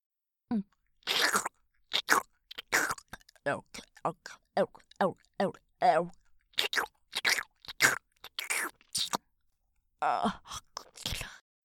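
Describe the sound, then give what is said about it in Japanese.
ASMR of a mouth nibbling and chewing on an ear: many soft, wet, crunchy clicks come in irregular bursts, mixed with breathy whispered speech. “兄さんの耳はとてもおいしいよ。程よい弾力がとても心地いいんだ。”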